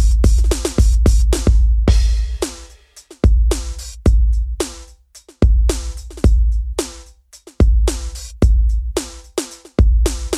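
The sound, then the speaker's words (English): A free drum machine plugin plays a hip hop demo beat: punchy, booming kicks and crisp snare and hi-hat hits repeat in a steady looped pattern, loud and with no voices. “we've got a more of a kind of a machine, drum machine type demo. Let me let you hear a little bit of that.”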